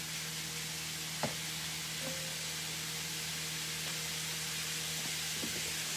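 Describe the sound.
Mince sizzling in a pan for mince and tatties: a soft, steady frying hiss over a low hum, with a faint knock near the start.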